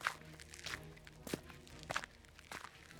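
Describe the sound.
Faint, evenly spaced footsteps walk down stairs in a video game, each step a soft thud in a slow, regular rhythm.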